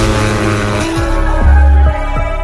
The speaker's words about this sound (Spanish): Arranquen los motores. Ha llegado la hora de pisar el acelerador.